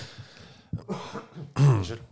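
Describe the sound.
Rough coughing and throat clearing in a few separate bursts, the last one loudest with a harsh, voiced rasp. The sound is on its own with no words spoken.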